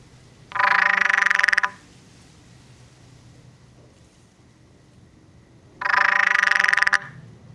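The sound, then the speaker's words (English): Frog calling from inside a pipe: two long, loud, buzzy and resonant croaks of about a second each, separated by a quiet pause with faint steady hiss. “Jo, and this frog singing in a pipe”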